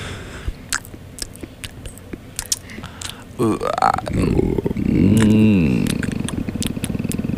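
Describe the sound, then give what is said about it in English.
Mouth noises made into a microphone: scattered wet clicks and pops lead into loud, gurgling burp-like grunts with sliding pitch, then a dense stream of rapid smacking clicks. “This is the part of the show where we make mouth noises into the mic.”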